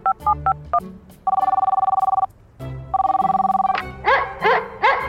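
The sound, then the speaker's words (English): Telephone ringback tone on a mobile device after a number is dialed: a few short keypad beeps, then two long, steady buzzing rings separated by a pause. “Dialing number on my mobile device.”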